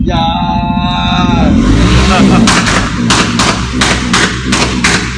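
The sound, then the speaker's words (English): Loud gunfire: a rapid series of sharp, booming shots in the second half, after an opening sustained, wavering tonal sound. “Meanwhile, someone just got shot. They're shooting.”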